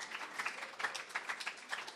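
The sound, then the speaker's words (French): An audience applauds the Lord in worship, a faint, soft wash of scattered clapping that stays quiet and even throughout. “Je peux applaudir. Oui, applaudissons le Seigneur.”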